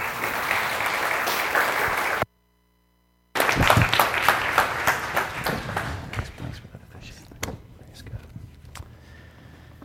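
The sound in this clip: A church audience applauds as a preacher is welcomed to speak. Dense, sustained clapping breaks off briefly, then swells again before thinning into scattered claps and soft thuds.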